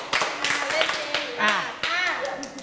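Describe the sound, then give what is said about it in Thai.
Hands clap in several sharp, dry bursts at an uneven pace, with voices talking throughout. “ปรบมือ5ครั้งเปิดใจกว่านี้ปรบมาอีกทีไม่ดีเลย”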